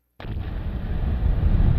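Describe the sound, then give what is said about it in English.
An explosion sound effect: a sudden loud burst, then a deep, rough roar that holds and swells slightly until the end. “That's the sound of my brain exploding.”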